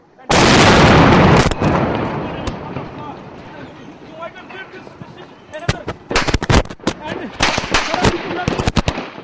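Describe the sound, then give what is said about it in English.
Gunfire and blasts ring out during a coordinated militant attack on the U.S. consulate in Peshawar. A loud opening blast gives way to rumbling noise and voices, then many sharp gunshots crack in rapid, irregular bursts. “A video posted on the BBC shows blasts and uniformed gunmen firing into plumes of smoke as others carried the injured to safety.”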